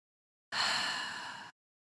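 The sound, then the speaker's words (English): A single slow exhaled breath, soft and airy, lasting about a second and fading slightly, alone in silence. “One of the best ways to do that is through exhales, just exhaling out.”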